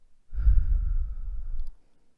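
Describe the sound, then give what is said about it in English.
A single long, breathy exhale pushed out through the mouth during a guided breathing exercise, a steady rushing of air lasting about a second and a half before fading out, with no talk over it. “and a big exhale out of our mouths. One more time. And big exhale.”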